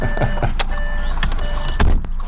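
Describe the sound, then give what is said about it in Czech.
Car interior during a ride just after turning off a main road: steady, loud road and engine rumble with a few brief clicks and thumps scattered through it. “Tak a to my už s Ladislavem Chrobočkem sedíme v autě a projeli jsme poměrně velký kus Havířovska. Teď jsme odbočili z hlavní silnice, která vede z Havířova”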